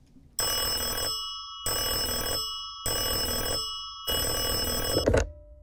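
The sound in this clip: A telephone bell rings in four even bursts, each a bright metallic trill with short silences between, the last ending abruptly with a click.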